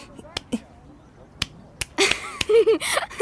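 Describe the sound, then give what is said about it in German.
Sharp hand claps, a few isolated slaps spaced irregularly, with a voice sounding over the last part. “Ui, die Robbe klatscht. Schau mal, Jana, ich klatsche auch.”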